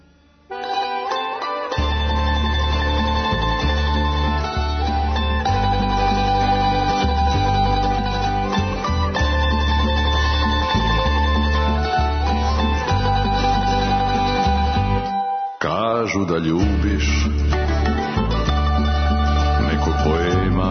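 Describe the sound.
A song with a singing voice and full instrumental backing plays loudly and continuously, with a brief drop in sound near the end before the music resumes.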